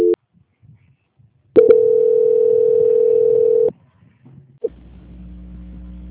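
Telephone call transfer tone: a brief beep, a pause, then one steady, moderately loud tone for about two seconds, followed by a click and a low, continuous line hum.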